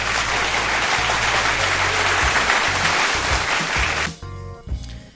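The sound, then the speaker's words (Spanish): Dense, loud applause holds steady for about four seconds, then drops away abruptly into quieter music. “El aplauso va de mi parte para ustedes, mi audiencia”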